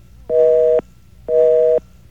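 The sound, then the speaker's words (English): A telephone busy signal sounds as two identical half-second beeps at a steady mid pitch, evenly spaced and loud, with a faint hiss between them. “Well, what does that mean? You gave a busy number.”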